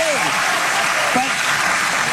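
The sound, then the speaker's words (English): Audience applause: dense, loud, steady clapping from a crowd, sustained without pause, with a voice briefly audible over it. “And again, the seals in the audience clapping like a bunch of dorks.”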